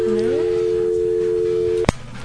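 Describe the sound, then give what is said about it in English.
A telephone dial tone sounds as a steady, even tone held for nearly two seconds over a faint low background. A brief rising sweep opens it, and a sharp click cuts it off. “Getting dial tones.”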